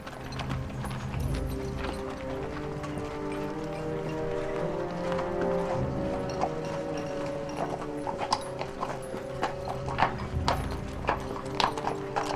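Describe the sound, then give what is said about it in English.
Horses' hooves clip-clop as riders enter a gloomy, almost deserted town, with many hoofbeats falling in a steady rhythm over a continuous background. “Robin and Mudge ride into the gloomy, almost deserted town.”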